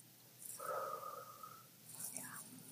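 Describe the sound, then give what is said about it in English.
During a breathwork exercise, a slow breath is drawn in through the nose and let out through the mouth: a soft, airy inhale, then a pause and a gentler breathy exhale. “And then just take a regular breath in through the nose. Nice, easy exhale out of the mouth.”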